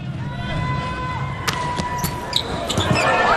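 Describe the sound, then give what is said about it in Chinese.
Ball strikes during a China volleyball serve, a few sharp impacts cutting through steady crowd noise while a commentator talks. “李永贞发球”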